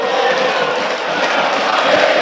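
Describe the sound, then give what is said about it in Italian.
Napoli football fans roaring across every sector of the stadium, including the central stand and south curve, as one loud, steady wall of crowd noise with no breaks. “quelli che sentite sono i tifosi del Napoli in tutti i settori dello stadio”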